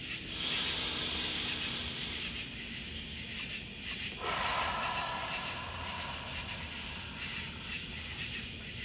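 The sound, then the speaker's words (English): A slow exhaled breath during a guided relaxation: a long, soft, airy hiss that swells at the start and then continues steadily and faintly to the end. “Allow yourself another full and beautiful breath, letting it go without pushing the air out too hard.”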